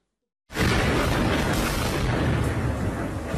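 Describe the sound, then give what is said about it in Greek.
Russian artillery shelling in eastern Ukraine: a loud, sudden blast erupts after a short silence, then holds as a dense, sustained roar to the end, with no voices. “Ρωσικό πυροβολικό βομβαρδίζει την Ανατολική Ουκρανία.”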